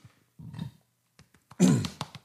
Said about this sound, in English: Excuse me for burping like that.